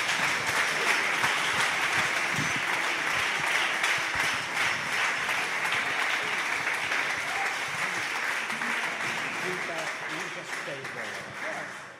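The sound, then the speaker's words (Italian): Audience applause at a Christian worship gathering: a long, dense, continuous wash of clapping that holds steady for most of its length and eases slightly toward the end, with voices mixed in. “Fate un applauso, per favore.”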